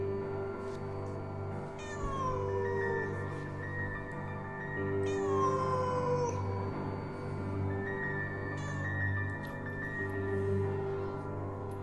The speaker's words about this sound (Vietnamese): Ở bên ngoài, con mèo vẫn kêu lên từng tiếng đến não ruột.